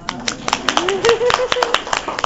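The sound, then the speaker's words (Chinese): Women at a church talk on marriage clap for themselves, a quick, uneven run of many sharp claps while a voice speaks over them. “那我们同时也要跟姐妹来自己拍拍手，说我也好棒，”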